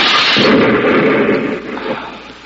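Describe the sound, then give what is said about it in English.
A hand grenade explosion: one loud, deep blast that swells into a heavy rumbling roar and then gradually dies away, with no voices. “Hey, it's a firing pin of a grenade. Give me that. Look out!”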